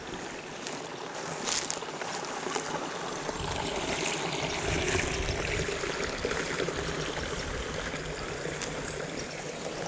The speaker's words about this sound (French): De l'eau qui ruisselle.